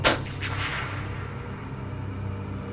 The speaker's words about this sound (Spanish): instintivamente disparé un proyectil por encima de su cabeza hacia el bosque.